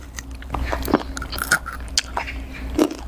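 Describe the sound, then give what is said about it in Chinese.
Someone bites into crunchy fried dough snacks made with spinach, producing a few crisp, sharp crunches and chewing sounds. The bites come alone and are fairly faint, set against a low background hum. “不知道水果蔬菜炒旗的结果会怎样。 能吃到菠菜的味道。 我尝一下。”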